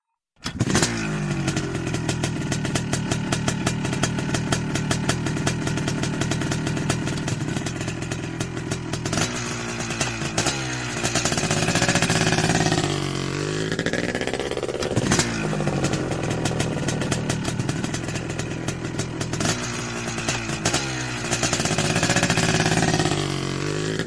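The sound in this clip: An Indian motorcycle's engine roars as the rider pulls away, a loud, continuous throaty drone whose pitch climbs in sweeping rises a few times as it accelerates through the gears.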